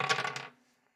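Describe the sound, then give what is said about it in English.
Dice are rolled during a tabletop game: a brief clattering rattle lasting about half a second that quickly fades away. “Come on, dice. You can do it for me just once.”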